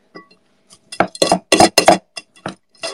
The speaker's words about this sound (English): Put a little salt in. And mix. Mixy, mixy, mix.